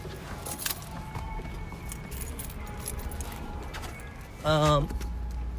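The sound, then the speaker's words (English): Cards falling to the floor, including a credit card, giving a brief light clatter early on over steady background noise, followed later by a voice speaking. “Oh, my damn cards fell.”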